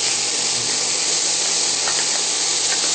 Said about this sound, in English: And now I'm going to add the garlic. You wait a few minutes to add the garlic so it doesn't stick to the pan and burn it.